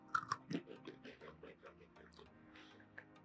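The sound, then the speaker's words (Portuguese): Faint, crisp crunching of Italian breadsticks made with olive oil comes in a few quick bites and chews, with soft vocal murmurs between them. “e uns palitinhos de pão com azeite de oliva que veio da Itália. Vamos provar? Vamos provar só ele sozinho.”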